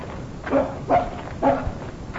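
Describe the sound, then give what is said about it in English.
A dog barking at something in bushes: three short, sharp barks at a mid pitch, evenly spaced, over a low background hiss. “I'm more interested in what he's barking at in those bushes.”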